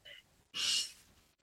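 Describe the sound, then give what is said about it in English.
One loud, airy breath during a guided breathing exercise, following a brief voice and tailing off softly. “Breathing in and out. Breathing in”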